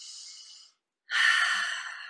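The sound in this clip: Breathing during a stretching exercise: a soft airy breath, a short silent pause, then a stronger, longer exhale blown out through the mouth.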